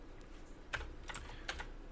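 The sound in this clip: Typing on a keyboard: faint, scattered key clicks in a few small clusters over low background hiss, with no talking.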